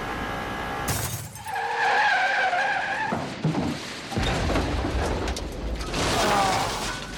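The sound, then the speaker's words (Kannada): Tires screech as a car speeding at about 160 km/h skids out of control toward a barrier after its windshield is shattered. A loud, sustained roar carries squealing tones through the middle and again near the end. “ಅಚಾನಕ್ಕಾಗಿ ಕಾರ್ನ windshield ಚೂರು ಚೂರಾಗಿ ಹೋಗಿತ್ತು ನಿಯಂತ್ರಣ ತಪ್ಪಿದ ಮನುಷ್ಯ ಅತಿವೇಗದಲ್ಲಿ ಬ್ಯಾರಿಯರ್ಗೆ ಡಿಕ್ಕಿ ಹೊಡೆದು ಕಾರನ್ನು ತಲೆ ಕೆಳಗೆ ನಿಲ್ಲಿಸಿದ್ದ”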